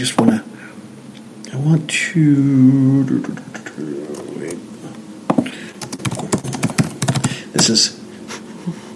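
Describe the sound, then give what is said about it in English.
Keyboard typing, with irregular clattering keystrokes in uneven bursts mixed with people talking. “I'm just going to laugh every time you type.”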